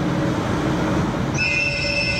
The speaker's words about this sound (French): le sifflement des trains à grande vitesse